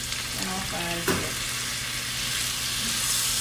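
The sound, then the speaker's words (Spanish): Wine is poured into a hot pan to make a sauce for chicken breast, giving a loud, steady sizzle with a brief hissing burst near the start, then continuous crackling spatter. “Seguimos con el vino, acuérdense que estamos cocinando para enamorar, así que otro poquito de vino va a ayudar con esa salsita.”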